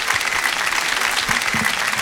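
Audience applause welcoming a performer onto the stage at a live show, a dense, even wash of clapping that holds steady and stands alone throughout.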